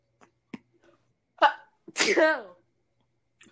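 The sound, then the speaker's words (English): A single loud sneeze, a short sharp intake burst followed by a stronger, voiced blast, with a few faint small sounds scattered before and after and no words spoken. “was that a sneeze?”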